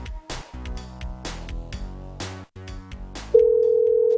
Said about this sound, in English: Let's dial the number.